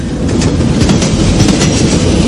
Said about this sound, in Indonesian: kereta ini memasuki semacam terowongan.